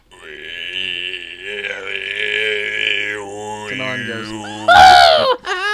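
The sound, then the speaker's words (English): A voice imitates actor Tim Allen's signature grunt: a long, drawn-out throaty growl held for several seconds with wavering pitch, ending in a sudden louder, harsher burst. “that's my favorite Tim Allen noise.”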